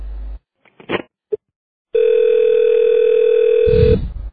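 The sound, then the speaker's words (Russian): A steady, loud continuous dial tone sounds from a telephone handset after the other party hangs up, preceded by a few sharp handling clicks and ending in a short rustle. “зачем вы трубку бросаете? Я к вам по-серьезному звоню, а вы трубку бросаете.”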